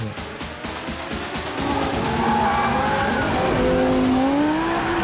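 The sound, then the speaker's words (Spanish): Cars in an illegal street race: loud, continuous engine roar with squealing tires, and an engine note climbing steadily in pitch toward the end. “La típica carrerica de coches ilegales.”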